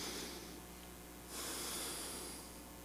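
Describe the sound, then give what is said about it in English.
A quiet breath drawn in, a soft airy hiss that swells about halfway through and then slowly fades, faint and alone with no talking. “take another breath”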